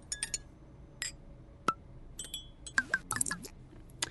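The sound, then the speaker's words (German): A teaspoon clinks sharply as a small spoonful of a beer substitute is prepared: a few bright, isolated metallic taps early on, then a quicker cluster of clinks toward the end, with no talking. “Ich bereite Ihnen einen kleinen Teelöffel von dem Ersatzstoff vor.”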